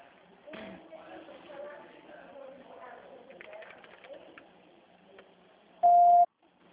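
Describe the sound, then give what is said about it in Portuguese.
Over a phone line while a call is being transferred, muffled talk is followed by a single short, loud, steady telephone beep near the end. “Tá, eu vou transferir a ligação. Pode aguardar na linha, tá?”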